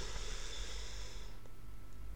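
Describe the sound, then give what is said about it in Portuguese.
A deep breath is drawn in during a guided conscious-breathing exercise for calming emotions, a steady airy hiss lasting a little over a second before it fades to near silence. “Respira profundamente, assim.”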